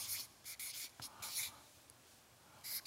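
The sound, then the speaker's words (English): A pen writing out words on paper, faint scratchy strokes coming in a few short bursts separated by brief pauses, with no voices alongside. “You have any idea how hard it is to write words like that while you're talking?”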